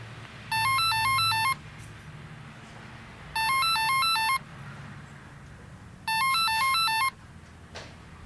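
An unanswered telephone rings at a company's office: three bursts of bright, warbling electronic ring tones, each about a second long, separated by pauses, over a faint low background hum.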